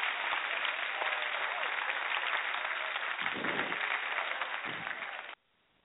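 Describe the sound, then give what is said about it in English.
A round of applause for past Salute a Youth candidates, a dense, steady wash of clapping that holds evenly for several seconds, dips slightly, then cuts off abruptly into near silence. “Once again, give another round of applause for all our past Salute a Youth candidates.”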